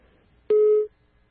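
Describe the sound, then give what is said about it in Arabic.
A single telephone busy-tone beep after a call line drops: one steady, mid-pitched tone lasting about a third of a second, heard alone over a faint background. “يبدو انقطع الخط.”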